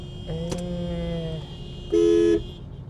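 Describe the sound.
A truck horn honks in traffic at a red light: one loud, flat, sustained blast near the end, preceded by a fainter, longer tonal honk.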